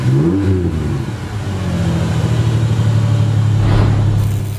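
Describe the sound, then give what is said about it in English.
A truck engine fitted with an aftermarket exhaust revs with a deep, throaty rumble. It swells briefly early on, then holds a steady, loud low drone, with no talk. “It's got a great exhaust note and is never so loud that it's annoying for your neighbors or yourself inside the cab.”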